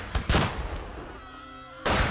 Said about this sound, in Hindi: तभी अचानक एक भारी गोली चलने की आवाज आती है